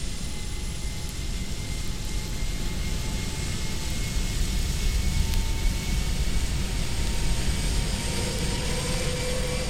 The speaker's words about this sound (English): they can hear the plane motors as they are each one fired in order. The first two are already running. Now three.